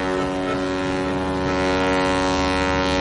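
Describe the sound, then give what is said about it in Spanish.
A ferry pulls away from the harbour, its engine giving off a steady, loud, harmonic drone with a faint hiss of wind, holding even throughout with no voices. “El barco zarpa.”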